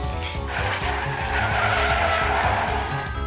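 Car tires squeal in a sustained skid as the car swings around a corner, a loud continuous screech over rumbling engine noise lasting about three seconds.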